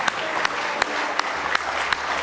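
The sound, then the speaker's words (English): A church audience clapping hands in praise during a morning service, steady applause with sharper accents recurring at a regular beat. “Give Him a good hand clap of praise this morning.”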